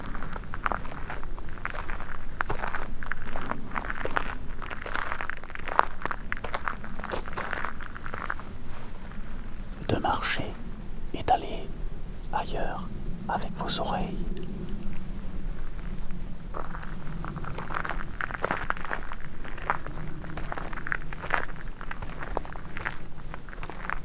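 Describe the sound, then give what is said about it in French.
Footsteps walk through a conifer forest, with many steady, soft crunching steps under a continuous high chirring of crickets that runs throughout. “Couvert de forêts, de conifères et de plantes, je vous propose de marcher.”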